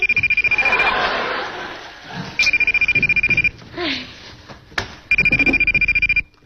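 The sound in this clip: A mobile phone rings with an incoming call, giving three bursts of rapidly pulsing electronic ringtone separated by short gaps.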